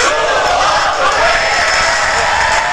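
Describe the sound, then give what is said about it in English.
Studio audience cheering and whooping, a dense crowd roar that holds steady and loud from start to finish. “Studio audience is back. Thank you, studio audience. We love having you back.”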